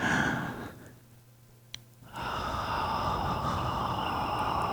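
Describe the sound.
A slow exhale through the mouth during a calming breathing exercise for a hot flash: a long, soft breathy rush, a brief pause, then a longer, steady airy breath that carries on to the end.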